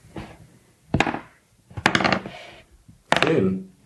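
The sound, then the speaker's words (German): Ten-sided dice are rolled for initiative in a tabletop role-playing game. After a faint first tap come a few separate bursts of sharp clattering, each dying away quickly, with short quiet gaps between them. “Wir alle würfeln jetzt ein W10.”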